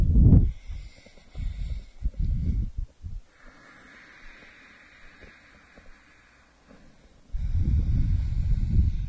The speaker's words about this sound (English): Use the muscles of your throat. Start to make a sound like a wave.